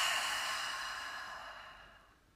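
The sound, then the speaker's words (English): A long, soft exhale during a guided deep-breathing exercise: one smooth, breathy rush that starts fairly full and fades steadily away, with no voices. “Take a deep breath in. Long breath out.”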